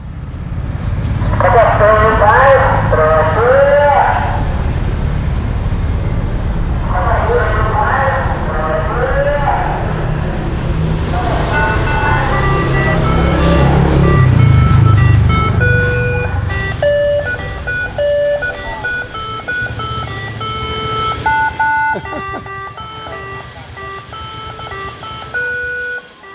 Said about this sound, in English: followed by the sounds of street sellers in Phnom Penh.